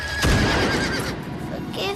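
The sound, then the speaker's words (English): A horse neighs while a wolf attacks it in the snow. The shrill, strained cry sits over a thick, continuous wash of noise. “He misses and stares open-mouthed as it mauls the horse, blood spilling on the snow.”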